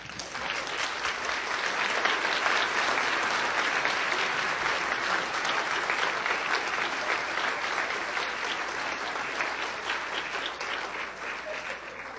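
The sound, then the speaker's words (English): Church audience applause greeting a guest pastor, a long, full wash of clapping that stays strong and even for about twelve seconds before easing slightly at the end. “And so would you join me and put your hands together and help me welcome Pastor Charles Haddon Spurgeon.”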